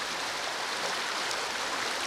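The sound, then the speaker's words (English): Cold, clear spring water flowing rapidly out of a cave-like opening over rocks and fallen tree branches in a once-dry creek bed, making a steady, even rushing hiss with no breaks. “The cold, clear water is flowing rapidly out of a cave-like opening, over rocks and fallen tree branches in what was a dry creek bed.”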